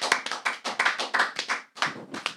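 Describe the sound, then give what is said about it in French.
Recorded applause plays from a prop: a short run of quick, uneven claps, fairly faint, with a brief pause before a final flurry. “Ça disait-tu que le monde applaudissait? C'était inclus, je crois. Dans c'était inclus, l'applaudissement oui.”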